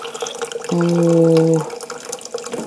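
Hot water filling a container with a metal section, for a press: a steady, pitched filling tone lasts about a second, rising out of softer background noise and then dropping away.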